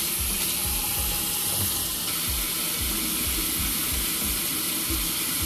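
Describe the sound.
Running water pours steadily from a tap as hands are washed, a broad even hiss that lasts throughout, with a regular low thumping beneath it.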